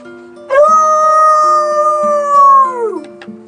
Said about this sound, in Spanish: Otra vez se soltó el perro del vecino. ¡Qué bien! Siempre se parece, me asusta, si me creo que es un lobo.